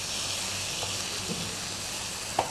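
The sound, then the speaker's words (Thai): Shrimp stir-fry with roasted chili paste, giving a faint, steady sizzle with a few light taps near the end. “แล้วก็ผัดให้น้ำพริกเผาเข้ากันกับกุ้ง”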